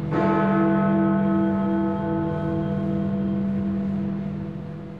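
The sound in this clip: Big Ben, the great clock bell in London, strikes once with a loud, deep clang, then hums on for several seconds as it slowly fades.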